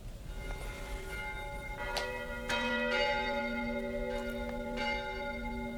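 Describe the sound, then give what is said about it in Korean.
A cathedral church bell rings out in several struck peals. Each strike leaves long, shimmering overtones that hang and overlap in a steady, resonant hum. “자, 이 명동성당에서 들려오는 것처럼 마음 저 밑바닥에서부터 아득한 종소리가 들려.”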